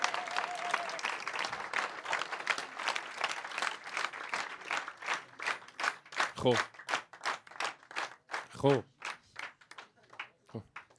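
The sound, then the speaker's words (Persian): Audience clapping, many claps falling into a steady, even rhythm that grows louder, with a person speaking over the early part and brief voices in between. “جملات آخر میخواین دست بزنین، یک کف مرتب بزنین.”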